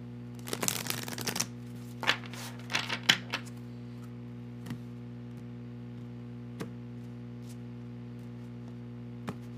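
Tarot cards are shuffled in a quick, dense burst of riffling. A few sparse taps and flicks follow as the deck settles, faint over a steady low hum.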